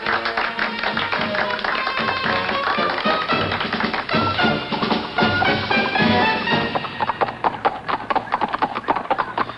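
Horse hooves clip-clop in a steady, rhythmic pattern as a horse pulls a buggy out onto a turnpike. The hoof taps are sharp and continuous throughout, with a dense layer of other sound beneath them.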